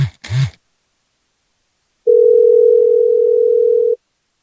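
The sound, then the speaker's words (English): A telephone ringing tone on an outgoing call to a bank sounds as a single steady, mid-pitched hum lasting about two seconds, after a brief burst of voice at the start and a short silence. “Almost sounds like fake ringing.”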